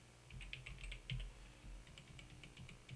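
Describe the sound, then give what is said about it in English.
Typing on a computer keyboard: quick, faint runs of light keystrokes with slight pauses between bursts, quiet throughout. “And if I click over here to edit contents of the frame, I can type in the title. Title is Friends of the Majestic Maple Library.”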